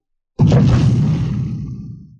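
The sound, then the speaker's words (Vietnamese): Heavy stone door pushed open with a single loud, deep impact that rolls into a long rumbling roar, fading away over about two seconds. “Nương theo một hồi âm thanh va chạm cực lớn vang lên, phiến cửa đá kia lùi về phía sau mở ra”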